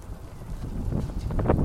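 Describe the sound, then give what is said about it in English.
Wind blows against a microphone outdoors, making a low, rumbling buffet that grows somewhat stronger toward the end. It is heard on its own, with no voices. “So it really is quite nice, the wind tickling my body,”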